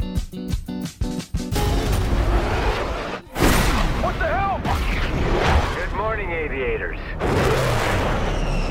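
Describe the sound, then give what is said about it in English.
Trailer audio for the action film Top Gun: Maverick opens with rapid percussive hits and a deep boom, then a sustained roaring rumble with voices speaking over it. “That's the trailer for the blockbuster movie Top Gun Maverick, starring Tom Cruise.”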